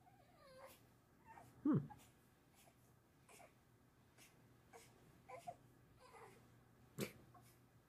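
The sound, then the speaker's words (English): A baby fussing in the background, with faint, scattered whimpers and short fretful cries across the stretch and a couple of louder sobbing bursts standing out. “For those of you wondering, yes, that is our baby in the background. Just a bit fussy.”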